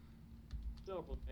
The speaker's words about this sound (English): And I hear her typing.